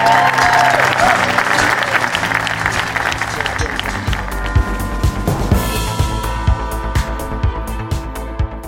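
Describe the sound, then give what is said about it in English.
Theatre audience applause at the Duchess Theatre: a loud, dense wash of clapping that gradually thins into scattered individual claps toward the end, with a voice speaking over the opening seconds. “a round of applause for everyone at the Duchess Theatre and everyone at Avalon who made tonight possible.”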